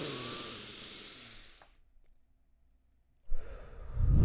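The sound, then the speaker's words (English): Deep breathing during a guided relaxation exercise: a long, airy breath that gradually fades into a few seconds of silence before another loud breath of air begins. “So let's do one more time. We'll breathe all that shit in, all the stress, all the work week, whatever it is.”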